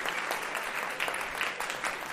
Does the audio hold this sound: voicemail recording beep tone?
no